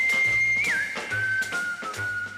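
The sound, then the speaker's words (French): A person whistles at a boy during a stage play: a sustained high whistle that wavers and bends early on, then settles into a steadier, slightly lower tone over a low humming background. “Pourquoi quand un garçon me plaît, je n'ai pas le droit de le siffler.”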